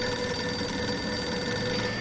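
A telephone rings with a steady, bright electronic tone that holds without a break for about two seconds and stays fairly faint.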